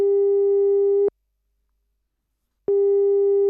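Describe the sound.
Telephone ringing tone while placing a call: a steady, mid-pitched electronic tone holds for about a second, falls silent for a longer gap, then starts again. No voices.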